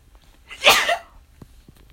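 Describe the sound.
One sneeze, a loud, sharp burst that swells and dies away within half a second, leaving only faint, scattered noises.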